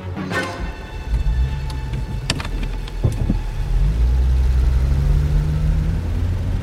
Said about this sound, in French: Le taxi roule doucement en direction de l'aéroport Charles de Gaulle.